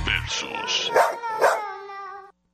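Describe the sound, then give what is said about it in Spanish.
A dog barking and yipping, with a few sharp barks followed by a longer, sustained howl-like note that cuts off abruptly. “¡Qué chulo perro!”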